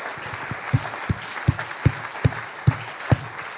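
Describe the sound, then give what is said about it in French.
A church audience claps in a steady rhythm, acclaiming the word of the Lord. Sharp hand claps land at a regular beat over a dense wash of crowd noise throughout. “Est-ce que nous pouvons acclamer la parole du Seigneur?”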